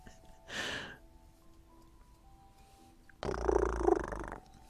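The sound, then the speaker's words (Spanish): A cat purrs: first a short breathy rasp, then a louder, rough, steady purr lasting over a second, with no talk over it. “Ve, fuera gato.”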